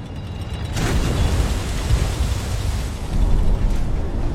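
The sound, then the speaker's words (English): A heavy wave crashes onto the deck of a naval ship under way, bursting in suddenly as a loud, deep roar that sustains as rushing noise and surges again near the end. “Outside, a wave thrashes the deck of the ship.”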